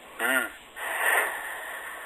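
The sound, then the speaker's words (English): A deep breath drawn in during a breathing exercise. A brief wheezy, voiced onset leads into a longer, airy inhale, fairly quiet throughout. “So if we all just sort of take a deep breath in”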